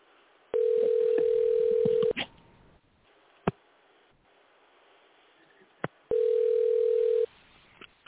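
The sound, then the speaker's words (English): A telephone dial tone, steady and thin like a phone line, holds for about a second and a half, then gives way to a few sharp clicks and line noise before the same steady tone returns briefly. “But let me try calling this congressman before it gets too late. Here, let me see here. Let me dial him. Here we go.”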